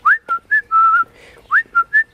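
A person whistles a signal outside a window to call a relative: a bright, loud pattern of short high notes, one held longer, then a brief pause and three more quick notes.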